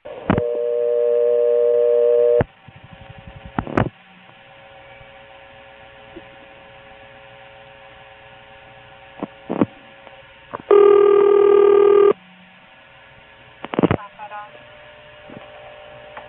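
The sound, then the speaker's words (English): Long-distance telephone trunk line with a remote exchange in Warsaw dialing into a selector: a steady tone, then quiet line hum broken by a few sharp switching clicks, a second short tone burst, and more clicks. “I cut into a trunk, and then there's a wait, and then you can actually hear something in Warsaw effectively dialing a 1 into a selector there.”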